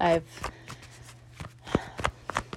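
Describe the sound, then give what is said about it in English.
A tarot card is drawn from the deck, heard as a few soft papery flicks and slaps of cards being handled, fairly quiet and irregular. “Next card out, we have the Moon card.”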